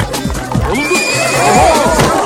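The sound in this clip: A horse neighs loudly while a rider struggles to control it in a garden among guests. The whinny is a long, high, wavering cry, with low hoof thuds and scuffing underneath.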